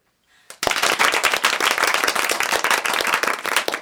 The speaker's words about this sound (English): Our cue card operator will be cueing you for applause and reactions. So, applause on cue, and then you're on, Jane, in 5, 4, 3, 2.